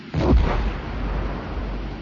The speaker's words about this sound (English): Are you setting off bombs or something?